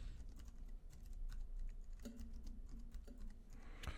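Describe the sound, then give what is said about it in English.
Someone types a search into a computer keyboard, producing faint, rapid, irregular key clicks in quick bursts with a few sharper taps. “You can probably type in Liquid Death Halloween costume.”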